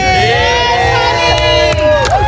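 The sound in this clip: Journalists cheer and shout in a press centre, welcoming a singer after the semifinal results of a song contest. The loud, continuous crowd noise is full of overlapping excited voices and whoops, with a few sharper bursts.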